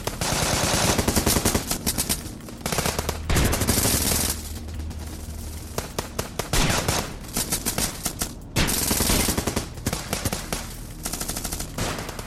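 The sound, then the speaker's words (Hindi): Machine gun fire from soldiers raiding a village: long, loud bursts of rapid shots, broken by a few short pauses. “मगर फिर भी उन्होंने गोलियों की बौछार शुरू कर दी।”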